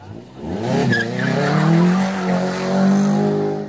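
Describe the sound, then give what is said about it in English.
Car tires squeal in a long, sustained screech lasting several seconds, with a wavering tone heard over the noise of the car. “It is good to be able to squeal those tires once again.”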